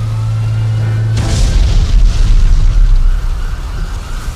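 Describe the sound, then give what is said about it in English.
A garage explodes: a steady low hum cuts off into a sudden loud boom, followed by several seconds of heavy rumbling and crackling debris that slowly fades. “Bruce and Drake got Harvey out just as the garage exploded.”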